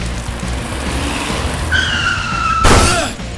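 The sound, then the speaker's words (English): A car skids and crashes into a person. The tyres screech in a high, tonal squeal for about a second, then a single sharp, loud impact crash follows over a continuous engine rumble. “the Green Ranger is thrown across the street as a car drives straight into him, sending him flying. The front bumper is totaled from the impact”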